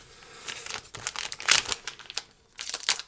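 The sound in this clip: The plastic wrapper of a baseball card rack pack is cut and torn open, making a few bursts of crisp crackling and crinkling with short pauses and no talk.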